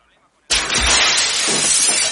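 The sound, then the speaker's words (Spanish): Glass shatters as a wrought-iron terrace chair is thrown through a glass door in a film scene: a sudden loud crash after a moment of silence, then a dense, sustained spray of breaking and falling glass. “coge una silla de forja de la terraza y la tira contra la cristalera.”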